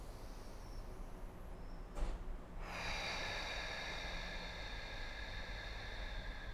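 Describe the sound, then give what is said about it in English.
Deep breathing in a guided relaxation exercise: a brief, sharp intake of breath, then a long, steady, airy exhale that runs to the end. It is quiet, with no talk. “So it's inhaling and then exhaling. And empty all of the breath out. And do that two more times.”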